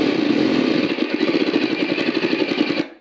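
A motor in a handheld drill, run at high RPM and played back from a laptop, roars steadily and then breaks into rapid, uneven chugging before it cuts out abruptly near the end.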